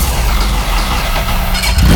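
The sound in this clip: A combustion motorcycle engine runs with a loud, steady, throbbing rumble that swells near the end.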